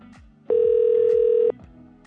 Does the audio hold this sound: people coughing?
no